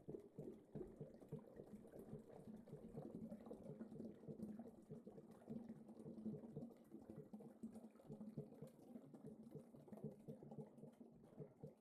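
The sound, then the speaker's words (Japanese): Water bubbles slowly in a faint, continuous stream of soft, irregular gurgles and pops, steady and quiet throughout. “さっきの泡は早かったみたいですね。今回はゆっくりした音に感じるし、”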